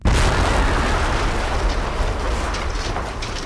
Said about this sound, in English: As it is, I'm gonna have to do this the old-fashioned way. Hope you boys like the taste of dynamite.